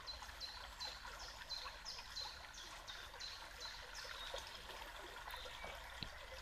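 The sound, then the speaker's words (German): Soft, steady flowing and trickling water, splashing gently and evenly, with faint high chirps repeating at regular intervals over it. “Und du wirst noch mehr eins mit diesem Fließen und mit diesem Plätschern mit jedem Ein- und Ausatmen”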